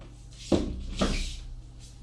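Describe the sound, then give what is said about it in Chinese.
A balcony window being shut gives two dull knocks about half a second apart, the second slightly softer, over a steady low background hiss. “再把阳台的窗给关上”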